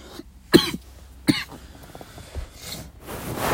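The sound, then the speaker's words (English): Coughing and clearing of morning phlegm: two sharp, loud coughs close together, followed by quieter, rough, gravelly hacking and throat-clearing noises that continue to the end. “That was disgusting. Oh, I hate morning phlegm.”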